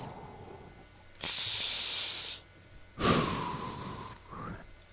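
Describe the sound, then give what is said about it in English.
A deep breath taken before starting: two long, airy, hissing breaths, quiet and alone, with a shorter breathy sound at the end. “Okay, take a deep breath.”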